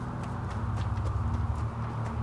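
Hooves of a horse bearing an approaching rider, a steady, quiet clopping rhythm that runs evenly from start to finish, with no voices.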